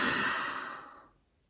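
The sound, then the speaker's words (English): A loud, audible exhale through the mouth during a guided mindfulness breathing exercise, one long airy breath that starts strong and fades smoothly to silence over about a second. “fill up nice, big, and full into the belly, hold for just a count, and then exhale out through the mouth nice and loud and audible. So here we go. We're going to inhale.”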